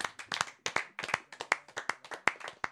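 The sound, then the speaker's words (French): Applause for the winner of a quiz game, with quick, irregular claps from a small number of hands, sharp and fairly faint, continuing steadily throughout with no voices. “Je pense que tout le monde peut l'applaudir chaleureusement.”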